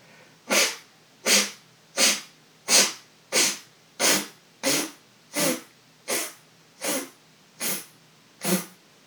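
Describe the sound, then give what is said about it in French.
Twelve forceful breaths blown out through the left nostril during a breathing exercise, each a short, sharp, hissing puff, evenly spaced and steady in loudness. “Vous inspirez, vous expirez par la narine gauche 12 fois.”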